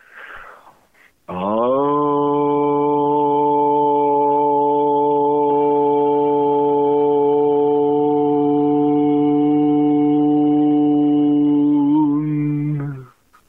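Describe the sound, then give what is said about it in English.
A single long vocal tone on the Aramaic prayer word Aun, held at a steady pitch for about eleven seconds, loud and alone, with a faint breath before it begins. “the first word from an Aramaic prayer sounds like this, Aun. And I'm just going to make one simple sound.”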